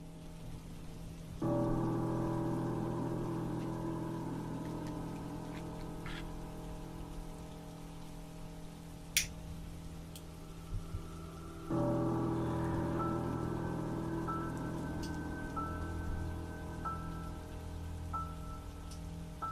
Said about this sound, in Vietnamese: Ở bên ngoài kia, mưa vẫn cứ rơi rả rích như một nét đặc trưng của Vân Nam vậy.